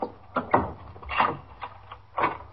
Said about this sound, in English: Just a second. I'll take the chain off the door.